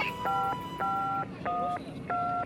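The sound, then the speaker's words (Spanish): A telephone number being dialed on a keypad: four evenly spaced, steady dual-tone beeps over a low background hiss. “sin poder aguantar la angustia, llamé a mi tía.”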